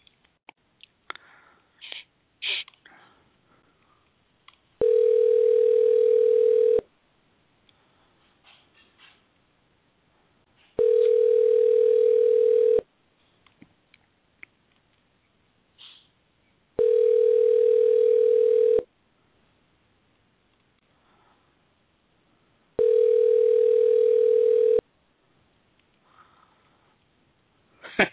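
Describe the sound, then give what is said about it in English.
Ringback tone of an outgoing telephone call: four long, even electronic ringing bursts of about two seconds each, separated by equal stretches of near silence. “One ringy dingy, two ringy dingy.”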